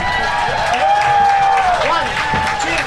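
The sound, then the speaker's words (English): An audience applauds and cheers loudly as a Beatles tribute band takes the stage for a sing-along. A dense, steady wash of clapping runs throughout, with a sustained whistle-like tone rising above it. “put your hands together really loud and make a welcome and meet the Seatles.”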